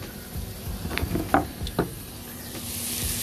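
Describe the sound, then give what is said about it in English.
Food sizzling in a pan while cooking, a faint steady hiss broken by a few slightly louder crackles and soft scrapes. “You can hear that sizzling right now. That sounds good.”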